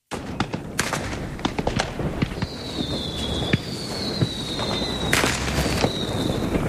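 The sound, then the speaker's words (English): Fireworks exploding for the Fourth of July: many sharp cracks and pops in irregular bursts, some louder than others, mixed with several thin whistling tones that streak through between the blasts. “every 4th of July, skies across North Dakota and the country come alive with color, sound, and celebration. But fireworks have changed a lot over the years.”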